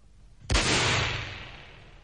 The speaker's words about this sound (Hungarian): A levegőben lőtt, uram!